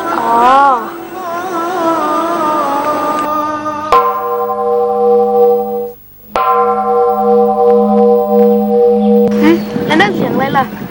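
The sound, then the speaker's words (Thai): A temple bell is struck to call people to chanting prayers. Two clear strikes each ring into a long, sustained, resonant hum, and wavering voices are heard at the start and the end. “ตีระฆังให้ไปสวดมนต์ทำวัดไงล่ะ”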